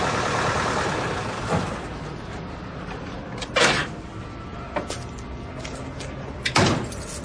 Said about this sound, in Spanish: conduce el jeep por una calle y lo detiene junto a la acera frente al portal de Sharon.